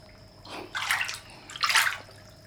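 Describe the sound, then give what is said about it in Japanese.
Hot spring bath water sloshing in two broad, splashy surges about a second apart, over a quiet steady background with no voices. “実にいいね、いい温泉だ。お湯も風情もとってもいいけど”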